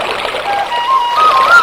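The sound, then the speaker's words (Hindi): Flowing, gurgling river water of the Yamuna, a brief and fairly loud steady burble of moving water. “और कहीं यमुना कलकल बह रही है। बड़ी सुंदर छवि”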